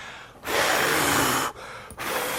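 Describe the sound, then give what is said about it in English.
Breath blown out hard through the mouth, demonstrating breathing on someone: a long loud exhale, a short pause, then two shorter huffs, with no talk. “And with that, he breathed on them. Imagine, poor young lady, Amanda, if I were to go to you and go like this.”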